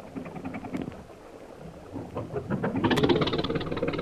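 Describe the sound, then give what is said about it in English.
A car engine runs while the vehicle is driven toward a lagoon, a steady, rough rumble mixed with noise that swells louder in the last second or so. “I must ask you to sit with Koa while I do the driving.”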